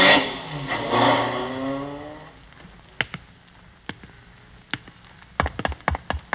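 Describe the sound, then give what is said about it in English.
A taxi engine drones loudly and then cuts out, in a radio drama. A scattered series of sharp clicks and knocks follows in the quiet. “Here's my house, cabbie. Pull up. It was real driving, buddy. Keep the change.”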